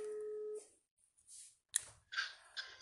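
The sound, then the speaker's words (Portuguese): A telephone ringback tone while a call connects: a steady low tone ends, then comes a quiet gap, followed by scattered clicks and short noisy bursts on the line. “Se ele atender também, deixa eu ver. Tá chamando.”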